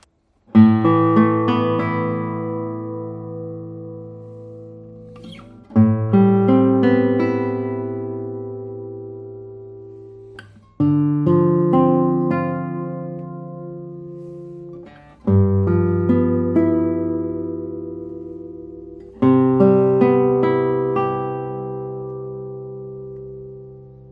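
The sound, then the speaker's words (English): A light, finely built acoustic guitar plays five strummed chords alone, each struck at an even, unhurried pace and left to ring out with a long, full-bodied decay. “It's very light, and I think, as all the other guitars of Sebastian Stenzel, also this one will sound very good. But let's see how it sounds.”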